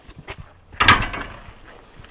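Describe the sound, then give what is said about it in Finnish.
A churchyard gate is pulled open with one sharp clatter that rings briefly and fades into soft rattling, with faint scattered knocks before it. “Tulemme kirkkomaan portille tässä. Avataan tuosta portti.”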